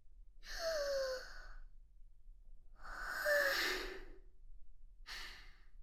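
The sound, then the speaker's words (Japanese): Slow, deep breaths taken to calm down: two long airy inhale-exhale breaths, then a shorter third, each a soft breathy whoosh with no talk. “ちょっと深呼吸して落ち着きますね。”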